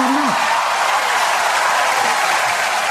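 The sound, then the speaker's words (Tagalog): A gathered group applauds with a steady hiss of clapping at a moderate level that lasts the full stretch. A brief voiced sound comes near the start. “palakpakan natin yan”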